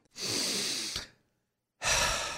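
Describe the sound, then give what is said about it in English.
Two long, deep breaths, each a soft, airy rush lasting nearly a second, separated by a clear silent pause. There are no voices. “Breathe deep.”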